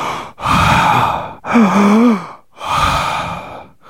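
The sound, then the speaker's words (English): A person gives an exaggerated demonstration of poor breathing with three long, loud, strained breaths separated by brief gaps. The middle breath is voiced, with a groaning tone that wavers in pitch. “that was incredible. That's about the worst way you can possibly breathe.”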